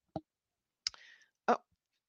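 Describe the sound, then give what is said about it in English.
Three quiet computer mouse clicks on a download button, each a sharp, separate tap. The second trails off into a brief, faint rattle. “And when you click on download now,”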